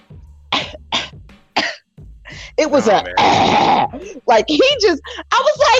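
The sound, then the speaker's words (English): A voice imitates a man coughing inside a gas station: a few sharp, breathy coughs, then louder, rougher hacking bursts mixed with strained, groaning vocal sounds. “all of a sudden he starts coughing”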